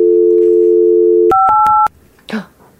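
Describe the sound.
Telephone tones: a steady, loud dial tone hums for over a second, then a few quick, sharp keypad beeps. They stop abruptly, and a brief faint voice-like sound follows.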